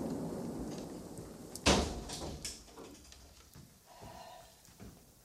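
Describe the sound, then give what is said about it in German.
A window is being closed, with one sharp knock-like bang near the start of a quiet stretch, followed by a few faint, softer clatters. “Würde bitte jemand das Fenster schließen?”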